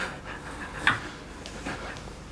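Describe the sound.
Heavy, quick panting breaths come from a woman too angry to calm down. The breathing is faint and ragged, with several breaths in a row and one sharper gasp standing out.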